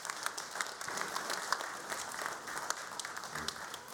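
Applause from a church audience welcoming guests from a partner ministry at a downtown campus: steady, even clapping throughout, soft and continuous.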